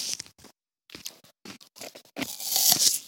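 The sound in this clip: Crisp crunching bites and chewing of a firm Fuji apple eaten with bacon. Several short, separate crunches come first, then a louder, denser stretch of crunching near the end, with no talk.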